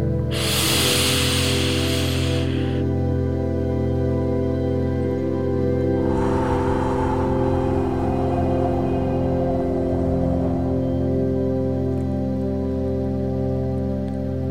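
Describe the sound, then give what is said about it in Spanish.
A slow, deep breath drawn in during a guided meditation breathing exercise: a soft, airy hiss lasting a couple of seconds, followed later by a second, fainter and longer breath, all over a sustained, calm tonal music bed. “Vamos a repetir este mismo paso tres veces. Nuevamente, inhala.”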